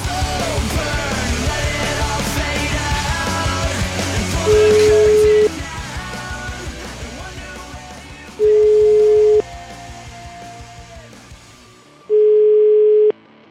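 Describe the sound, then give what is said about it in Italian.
Telephone ringback tone while dialling a caller: three steady, mid-pitched beeps about one second long and roughly four seconds apart. They sound over dense background sound that fades out toward the end. “Chiamiamo questo Enrico Pagani che ci insulta un po'.”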